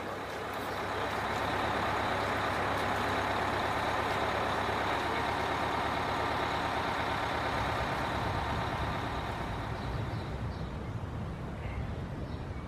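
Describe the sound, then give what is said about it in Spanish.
A city bus engine in an Andalusian city, on a ride toward the city centre: a loud, steady rumbling drone with broad road noise that holds evenly throughout, with no talk. “Vamos a tomar el autobús que nos lleva al centro de la ciudad.”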